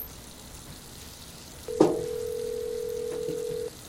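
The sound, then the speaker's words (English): A steady mid-pitched telephone line tone as a cell phone call is placed from a bathroom, starting with a soft click and holding level for about two seconds over a faint background hiss. “He makes a cell phone call from the bathroom.”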